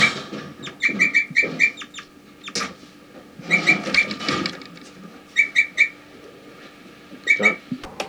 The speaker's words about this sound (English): They're recording 4-3, giving flight calls.